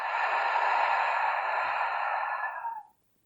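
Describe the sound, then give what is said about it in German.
A deep breath out through the mouth, part of slow nose-in, mouth-out breathing, comes as one long, steady, airy exhale lasting nearly three seconds before trailing off into silence. “Schließe deine Augen und nimm zuerst einige tiefe Atemzüge durch die Nase ein und durch den Mund aus.”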